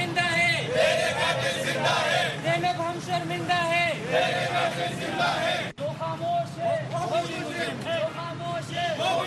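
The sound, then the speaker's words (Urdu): Students and other protesters chant slogans in front of the Peshawar Press Club, protesting child sexual abuse. Many voices repeat loud rhythmic calls, with a brief drop in level midway before the chanting resumes. “مظاہرہ کرنے والے افراد اور طلبہ نے اس واقعے کے خلاف نعرے لگائے۔”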